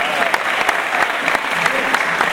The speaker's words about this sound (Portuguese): Oh, obrigado. Salve de palmas!